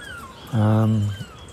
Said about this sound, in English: And seagulls. There's quite a lot of seagulls around. I still don't understand what they're doing here.